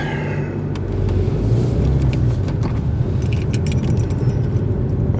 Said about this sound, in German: Jetzt muss ich erstmal aus der Einfahrt raus. Dann reden wir weiter. Und los geht's.